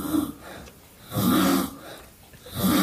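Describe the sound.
A woman snoring while asleep, rough low snores recurring in a slow rhythm with quieter breathing between them.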